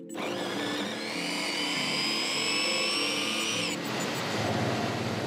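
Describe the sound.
Sugar beet being sliced in a small machine demonstrated at the Technorama in Winterthur: a steady, loud whirring motor with a high whine that drops away near the end while the grinding continues.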